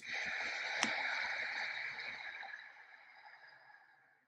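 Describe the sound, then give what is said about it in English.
Slow, deep breathing during a guided meditation: one long, airy exhale through the mouth that starts strong and fades gradually into near silence. “Take a deep breath in now, full lungs, in through your nose. Out slowly through your mouth.”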